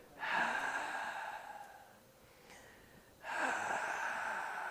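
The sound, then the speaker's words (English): A voice imitates the wheeze a person with difficult breathing makes on breathing out, produced in the throat: two long, breathy, whistling exhalations separated by a quieter breath. “When the person breathes out, we hear a wheeze. I'm doing it in my throat, but it's actually in their chest when they do it. And you hear it.”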